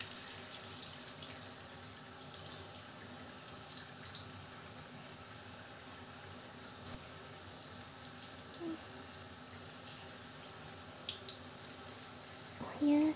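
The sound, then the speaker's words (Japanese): Warm water runs from a tap while hair is being rinsed, a faint, steady hiss that carries evenly from start to finish, ending with one brief louder knock. “では、お湯を出しますね。お髪をお湯で軽くすすがせていただきます。”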